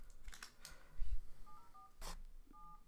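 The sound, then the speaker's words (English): Telephone keypad dialing tones as a number is typed into a phone: a few short, pure beeps in quick succession, preceded by soft tapping and handling noises, with no voices. “Okay, make sure it's *67 your number. Wait, what? Here, type it in.”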